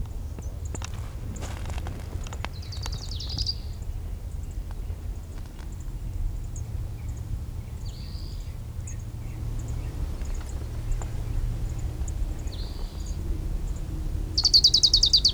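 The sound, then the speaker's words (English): Orange-crowned warbler singing on the divide between two canyons, giving a few short, high trilled phrases spaced several seconds apart, faint over a steady low rumble. “Orange crowned warbler number 3 on the divide between Sweetwater and Middle Canyon.”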